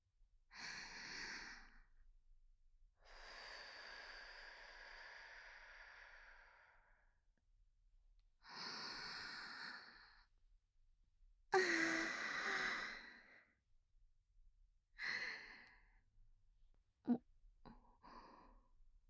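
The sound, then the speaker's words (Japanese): Deep breathing from one person: several slow, drawn-out inhales and sighing exhales separated by quiet pauses, ending with a few shorter, quicker breaths. “深呼吸しますね。”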